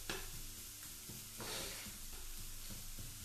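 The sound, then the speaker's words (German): Onions frying in a pan with a steady, fairly faint sizzling hiss and a few light stirring scrapes. The sizzle swells briefly midway, and no one speaks. “So, also zuerst braten wir die Zwiebeln ein bisschen an.”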